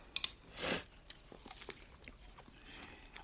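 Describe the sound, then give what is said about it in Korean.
Someone bites into an apple with a single crisp crunch, then faint chewing crunches follow, all quiet, with a couple of small sharp clicks just before the bite. “자, 사과 먹어.”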